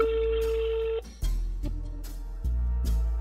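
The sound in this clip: A telephone call being dialed: a steady tone holds for about a second and then cuts off, followed by a few soft clicks and pulses on the line.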